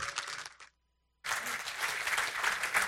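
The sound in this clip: Audience applause welcoming a pastor as guest speaker: loud, dense clapping that cuts to a brief silence, then resumes and swells steadily.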